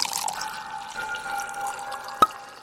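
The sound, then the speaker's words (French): Wine poured into a glass at a wine shop during a tasting: a faint, steady liquid trickle with a thin ringing tone, ending in one sharp click. “on se sert un petit verre de la quatrième bouteille au programme.”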